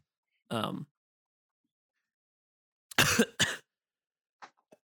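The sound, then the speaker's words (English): A person coughs and clears their throat, as if something is caught in it. One short rough cough comes first, then after a pause two harsh throat-clearing bursts, followed by a couple of faint small traces. “I have something caught in the back of my throat.”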